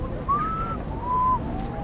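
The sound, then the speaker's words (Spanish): A voice imitates the whistle of a bird from Tuluá, Colombia: two clear, fairly high whistled notes, the first gliding slightly upward and held, the second steady and level, over a faint background hiss. “Y en Tuluá hay un pájaro que suena...”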